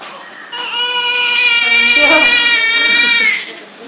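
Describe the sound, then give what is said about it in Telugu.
A baby cries loudly in sustained, high-pitched wails that swell in the middle and then drop away, with a strong, steady tone throughout. “బాగా ఏడుస్తున్నారు అండి.”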